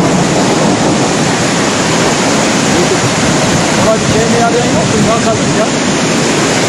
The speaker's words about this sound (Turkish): Taşan sular yerleşim alanlarına kadar ulaştı.